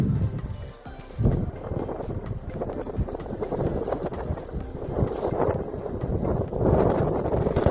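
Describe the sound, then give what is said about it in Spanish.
Strong storm wind roars through Santander, Cantabria, in a loud, continuous gusting rush that buffets the microphone and swells in surges. “Así sonaba el viento, que dejaba ramas y árboles caídos, cableado descolgado, daños en fachadas y cubiertas de edificios que salían volando.”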